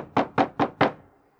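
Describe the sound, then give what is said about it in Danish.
Four evenly spaced, firm knocks on a door at night, each a dull thud, followed by a short fading tail and then quiet. “Og så banker skrædermesteren på døren.”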